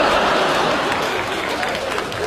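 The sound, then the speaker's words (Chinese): Applause from the second-floor audience at a crosstalk comedy performance, a continuous wash of dense clapping at a strong, even level that eases off slightly toward the end. “应该呢，像那什么，二楼的掌声算你的。”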